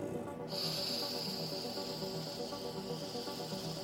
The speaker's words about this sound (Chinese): 我们最后一次吸气，